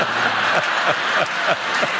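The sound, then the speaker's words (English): A studio audience claps and cheers, a dense, loud wash of applause pulsing in a quick, regular rhythm for the whole two seconds. “The salon's Roomba, clearly, you're all cheering for the Roomba. You're like, go, little Roomba.”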